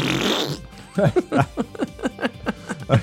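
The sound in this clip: A fart sounds as a rapid sputtering run of many short, low, buzzy pulses in an uneven rhythm, coming right after a brief burst of hiss.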